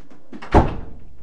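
A door bangs shut inside a house near a bedroom, giving one loud, heavy thud followed by a short, fading rattle.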